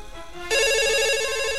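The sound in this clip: A telephone rings for an incoming call: a bright, steady electronic ringtone with rich harmonics. It jumps in loudly after a brief, softer lower tone and holds to the end.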